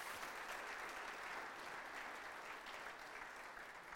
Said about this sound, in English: So can we give all of those people a hand this morning for what they've done?